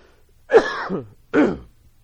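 Two short, rough throat clearings from a person with a tickle in the throat, the first longer and gravelly, the second a brief, sharper rasp after a short pause.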